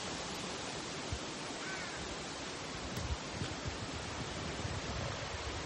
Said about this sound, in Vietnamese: Đây có suối nước nè, cây cối.